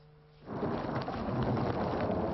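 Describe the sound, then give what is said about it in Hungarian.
A thunderstorm with heavy rain over Brisbane, Australia: after a brief quiet opening, a loud roar of torrential downpour and deep thunder rumble surges in and holds steadily to the end. “Elektromos vihar, özönvízszerű eső és hóesés, mindez egyetlen nap alatt zúdult Ausztráliára”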